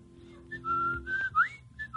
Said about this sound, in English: A nice set of teeth to whistle with.